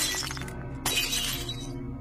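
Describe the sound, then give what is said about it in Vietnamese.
Glass shattering as candles are knocked over: a rough clatter, then a bright, sharp crash of breaking glass with a lingering, tinkling shimmer over a low, steady hum. “Mấy ngọn nến để gần đó cũng bị cái rèm tang nó hất vỡ đánh choang, làm cho bà giật mình.”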